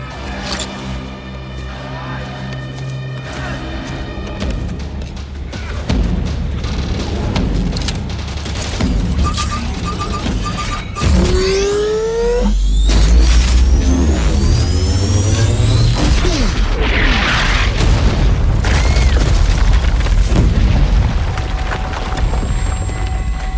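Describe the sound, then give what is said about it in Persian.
An explosion set off on command toward a mountain ridge, with a heavy boom, long splintering, crackling debris and deep rumble amid dense, busy action sounds. “امتداد اون تیغه کوه موقعیت ساعت 1. آره. منفجرش کن. با کمال میل.”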